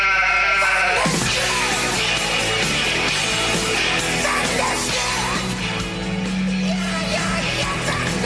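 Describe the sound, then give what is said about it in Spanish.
A flock of sheep bleats continuously and loudly, with many overlapping calls forming a dense, steady chorus throughout. “Las ovejas se están rebelando. No me digas. Dios mío. Y hay algo. El rebaño está a punto de llegar.”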